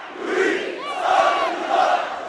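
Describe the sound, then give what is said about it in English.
A large crowd shouts at a protest in Benghazi, waiting for an arriving delegation. Many voices roar together in loud, chant-like swells that surge about three times without pause. “A large and persistent crowd gathered well before the delegation's arrival at a local hotel”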